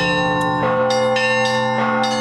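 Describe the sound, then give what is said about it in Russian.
Church bells of a monastery ring together in a harmonious set. Bright, repeated strikes rise over sustained, layered ringing tones, with several bells overlapping throughout. “Очень красивый звукоряд, очень гармоничное сочетание колоколов между собой.”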